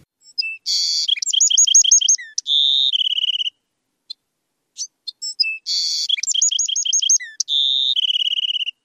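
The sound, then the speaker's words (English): A male Bewick's wren sings energetically, twice over: each phrase opens with buzzy notes, runs into a rapid high trill, and ends in a lower buzzy trill. The two phrases are separated by a short gap of near silence. “Well, that enthusiastic and energetic call is from a male Buick's wren.”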